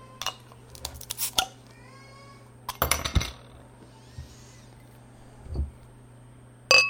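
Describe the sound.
A beer bottle being cracked open: a few sharp metallic clicks and clinks, then a louder rattling burst near the middle and a final sharp snap, heard alone over quiet background hum.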